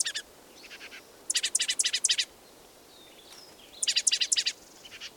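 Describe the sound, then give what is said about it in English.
Birds call in two bursts of rapid, high, chirping trills, one near the start and one later. Fainter short calls sound in between over quiet background hiss. “two birds present”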